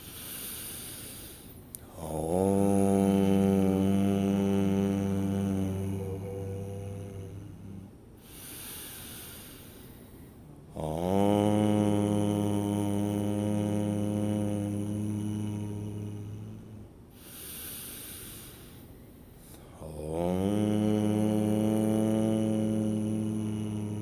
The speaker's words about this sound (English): Let's end this with three ohms in synchronicity. We'll start with a deep breath.